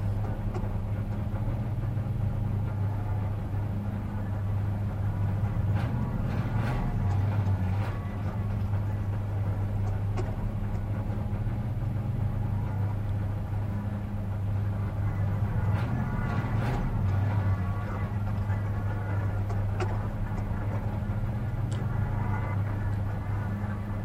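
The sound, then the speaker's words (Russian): A bread delivery van drives along with its engine running, giving a steady low droning hum with a rumbling undertone that holds evenly throughout, with no voices. “Шарапов в задумчивости едет в хлебовозке.”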